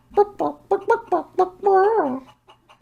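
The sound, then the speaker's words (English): A voice imitates a chicken's clucking in a Muppets theme park show: about six short, bright clucks in quick succession, then one longer, wavering squawk and a few faint clicks. “And then a chicken comes through. And he's like, hold on. You're not a penguin. You're a chicken. And then he asks the question, why did this chicken cross the road? And then the chicken replies,”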